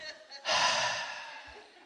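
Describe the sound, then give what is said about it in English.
A group of people draws in one deep breath together: a soft rush of air swells suddenly, then fades slowly over about a second and a half, with a few faint breathy sounds just before it. “Everybody take a deep breath with me right now.”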